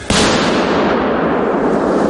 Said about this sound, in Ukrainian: Подрив! Подрив!